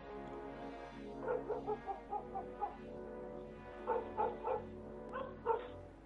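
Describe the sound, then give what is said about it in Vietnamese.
Fierce barking from a stray dog with its hackles raised: many harsh, loud barks come in irregular bursts, with short gaps between the clusters. “Con chó sù lông lên, bắt đầu sủa dữ dội.”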